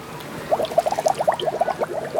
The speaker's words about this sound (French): À l'arrivée, Toudou tombe la tête la première dans l'eau.